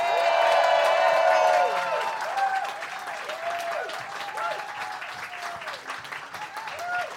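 Audience applause welcomes a returning guest, loudest and densest over the first two seconds, then settling into steady, slightly softer clapping that carries on to the end.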